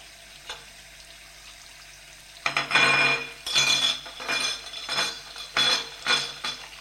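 A plate is handled and wiped dry with a cloth: after a quiet start, a series of brisk swishing rubbing strokes comes in irregular bursts with faint crockery clinks, and no talking.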